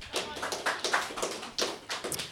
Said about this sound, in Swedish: Kan vi få en stor applåd för till dem?